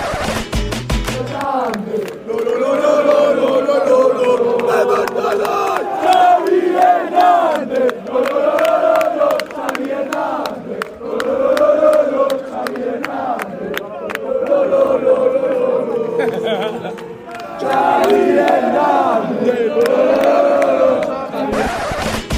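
Football fans in the away stand chant a name in unison: a loud, continuous, rhythmic crowd chant with rising and falling melodic phrases, sustained for about twenty seconds after a brief quieter start.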